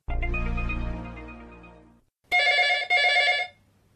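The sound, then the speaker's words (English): A telephone ringing for an incoming call at a camera sales showroom: one loud bright ring that fades away, a short pause, then two shorter, louder rings close together, with no talk. “Let's listen to how she handles a telephone call from Daniel”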